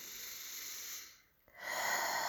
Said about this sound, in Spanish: Inhalo por la nariz